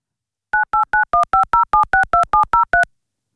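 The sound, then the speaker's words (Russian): Touch-tone keypad dialing as a telephone call is placed: twelve short, loud two-tone beeps in a quick, even rhythm, with silence before and after and no voices. “попробовать подарить ей второй шанс и дозвониться еще разок. Мы попробуем, конечно, сейчас это сделать. И нажимаем.”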